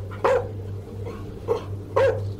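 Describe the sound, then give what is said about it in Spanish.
A dog barks aggressively at something upstairs on a house's second floor, three sharp loud barks spaced unevenly over a steady low hum. “El perro pasó corriendo por detrás de nosotros y subió a saltos por las escaleras hacia el segundo piso donde le ladraba de forma muy agresiva a algo.”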